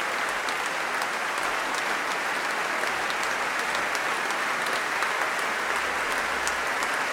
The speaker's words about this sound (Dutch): Groot applaus ook voor deze dirigent en oprichter dus van het gezelschap.